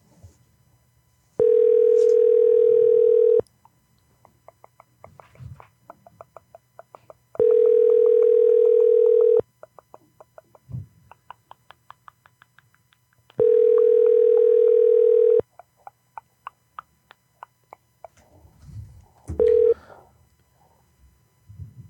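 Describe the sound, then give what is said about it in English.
Telephone tone heard while a call is placed: three long, steady tones, each about two seconds, separated by pauses of similar length, with a short final tone near the end. “All right, we're calling one more time.”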